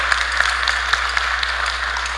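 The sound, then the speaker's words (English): Audience applause welcoming a presenter, a continuous patter of many hands with individual sharp claps popping out of the steady wash, with no talk over it. “Let's give Jesse a really big round of applause. Welcome her.”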